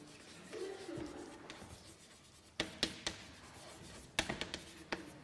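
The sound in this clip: Writing by hand, quiet scratchy strokes on a surface followed by a run of sharp, brief taps and ticks in two clusters, with no voices.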